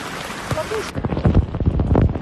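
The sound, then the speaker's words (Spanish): Heavy rain pours down on an outdoor football training session in Shenzhen, China. It starts as a dense, bright hiss, then turns into a rougher, loud patter of splashing bursts. “Y hoy se han entrenado bajo una tormenta de agua increíble que suena así.”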